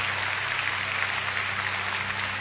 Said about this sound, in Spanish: Dele aplausos a Él. Gloria a Dios.